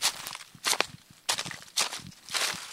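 Footsteps of people walking along a hiking route, crunching in several uneven bursts of steps, moderately loud, with no talk.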